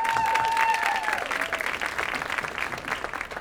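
An audience at an Apple Store event applauds to welcome a film's director and star: steady, dense clapping that holds throughout and slowly thins.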